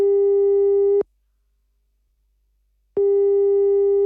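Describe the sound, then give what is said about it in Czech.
Ringback tone of an outgoing telephone call: a steady, mid-pitched electronic tone cuts off, falls silent for about two seconds, then sounds again and holds to the end. “Hned teď mu zavolám.”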